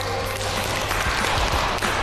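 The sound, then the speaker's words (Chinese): Classroom applause for a group of students after a small contest: a loud, continuous wash of clapping with a low hum underneath and no clear individual claps. “来，掌声送给这一组。”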